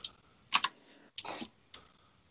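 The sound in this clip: A few quiet computer keyboard keystrokes, sharp separate clicks with short gaps between them and one slightly longer clatter in the middle, heard alone against near silence.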